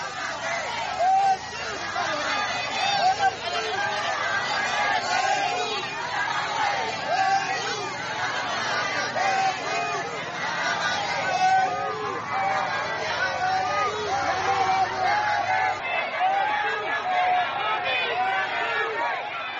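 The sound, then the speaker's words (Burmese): A crowd lining a road chatters as people welcome State Counsellor Aung San Suu Kyi on her way home from Naypyidaw International Airport. A dense, steady babble of many voices runs throughout without pause. “ခုကြားခဲ့ရတဲ့အတန်ကတော့နေပြည်တော်နိုင်ငံတကာလေဆိပ်ကနေနေအိမ်ကိုပြန်လာနေတဲ့နိုင်ငံတော်၏တိုင်ပင်ခံပုဂ္ဂိုလ်ဒေါက်တာဆန်းစုကြည်ကိုလမ်းမဝဲရာတစ်လျှောက်ကပြည်သူတွေဝန်ထမ်းအနေနဲ့အကြောင်းသူအကြောင်းသားတွေကြိုဆိုနေကြတဲ့အတန်ဖြစ်ပါတယ်”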